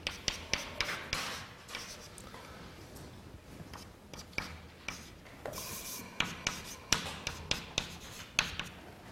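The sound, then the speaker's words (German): Writing on a board during a lecture, with many short scratchy strokes coming in quick rhythmic bursts, faint and without talk. “Ich schreibe es nochmal hin.”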